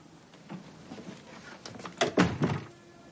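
An apartment door closing in a thriller film, with a few solid thuds and latch clicks bunched near the end after faint, soft movement noises.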